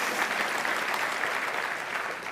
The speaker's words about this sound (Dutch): Laten we jullie ook nog een applaus geven.